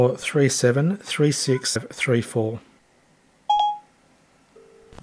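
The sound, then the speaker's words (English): Phone dialing tones as a voice assistant calls a mobile phone: after a stretch of talk, two short electronic tones sound alone, a bright beep followed by a lower, steady tone running to the end. “So I'm going to ask Siri to call my mobile phone.”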